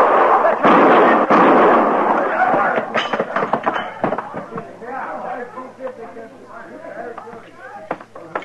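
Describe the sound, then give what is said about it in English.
Gunshots ring out in a Western radio drama: a few sharp, loud bursts crowd the first seconds, then voices take over with tense talking. “He killed Baird, Marshal. He was going to kill me. You shoot him again and I'll kill you.”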